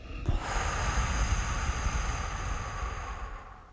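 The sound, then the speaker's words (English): A deep breath is exhaled through the mouth, a long, steady, breathy rush of air that holds for about three seconds before trailing off. “take a deep breath in. Exhale out your mouth.”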